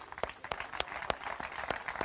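Faint audience applause welcomes a guest, a public prosecutor, with a soft wash of clapping broken by sharper individual claps at a steady, uneven patter.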